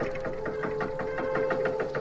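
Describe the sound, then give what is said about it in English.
A gear grinding sound effect: a rapid, even train of mechanical pulses over a steady humming whine, moderately loud and unbroken for the whole stretch. “we are going to need that gear grinding sound effect again”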